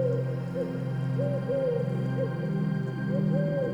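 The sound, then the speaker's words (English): Owl hooting in a series of soft, rounded calls that rise and fall, repeating several times over a steady, low, humming drone, faint overall. “The owl's call glides through the air again”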